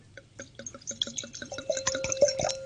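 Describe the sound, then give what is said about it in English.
Golden, five-year-old Bâtard white wine pours into a glass as a quick series of soft splashing glugs that come faster and closer together, fairly faint and with no talking over it. “Now I'm pouring this beautiful Batard.”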